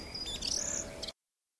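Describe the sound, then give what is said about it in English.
Bird chirping in a forest: a few high, thin tweets and one bright sliding whistle, fairly faint, ending abruptly in silence. “Let me listen to the sounds of the forest. I love to hear the birds sing.”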